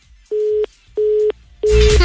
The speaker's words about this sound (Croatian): Pretpostavljam da je ovdje došlo do pucanja veze sa mobitela.